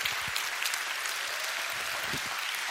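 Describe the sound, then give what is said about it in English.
Applause from a church audience: a steady, dense patter of clapping hands, moderately quiet, with no voices over it. “Let's give everybody just a big hand.”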